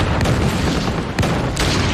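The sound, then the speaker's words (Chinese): Artillery shells a bridge in a war drama scene: a dense, continuous roar of fire, loud throughout, with a few sharper blasts cutting through. No voices are heard. “下令，炮击成兵桥。”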